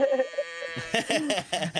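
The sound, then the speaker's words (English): Cows lowing in a few drawn-out calls: the first is steady and tonal, and the later ones are rougher, louder and more bleat-like. “Well, we got our cows going on. Yeah, the cows are going off.”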